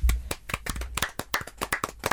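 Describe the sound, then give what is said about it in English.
A small group gives a round of applause: sharp, uneven handclaps ring out loudly and distinctly throughout, with no pause. “Well done, everybody. Round of applause.”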